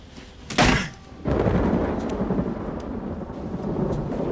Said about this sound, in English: He looks up at the sky as rain starts to fall.